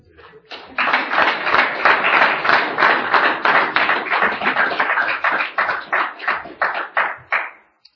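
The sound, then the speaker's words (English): Audience applause welcoming a speaker at a recovery group meeting: loud, sustained clapping from many hands that breaks into rhythmic pulses toward the end, then fades out abruptly. “Please help me welcome our speaker tonight”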